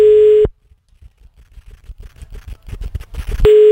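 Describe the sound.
Telephone ringing tone on an outgoing call: a steady, loud, even-pitched tone stops after half a second, a stretch of soft clicking and rustling noise follows, then the same tone returns at the end.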